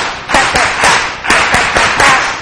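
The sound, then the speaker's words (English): Hands clap together at a worship service, loud group clapping in short bursts that repeat to a steady beat, with no voices. “And then let's start the clapping first.”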